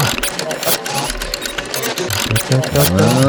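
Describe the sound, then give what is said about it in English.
Rapid, steady ticking of a prize wheel spinning to pick a song, running for the whole stretch with voices talking over it. “Let's spin the wheel for song number two.”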